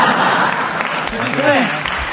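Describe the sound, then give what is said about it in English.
A studio audience at a panel game boos and hisses in a broad, rushing wash of crowd noise, with a voice speaking over it partway through. “Stephen was waiting for the booing to subside. I'm being hissed.”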